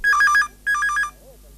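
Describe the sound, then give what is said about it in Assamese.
A telephone rings in two short trilling bursts, each warbling rapidly between two high pitches, with a brief pause between them and quiet afterward. “কোনোবাই phone কৰিছে”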